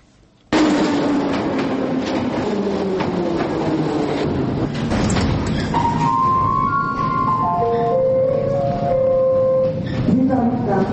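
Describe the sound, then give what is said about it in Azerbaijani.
An underground train in the Baku metro rumbles and clatters loudly after a sudden start, then a stepped series of falling tones sounds over the continuing noise. “həmkarımız Gülnur Rafiq qızı bu dəfə metroya mikrofonla düşüb maraqlanıb ki, Bakı metrosu necə işləyir?”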